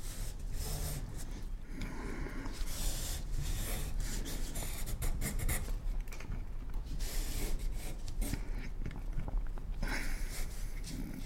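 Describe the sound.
A pen or pencil drawing on paper, making continuous scratchy, rubbing strokes that repeat in many quick bursts at a fairly even, moderate level.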